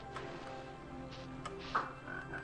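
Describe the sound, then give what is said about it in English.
A frog croaks in a video game, a short croak over a steady, humming game background. “Oh, there's a frog there. Hit the frog.”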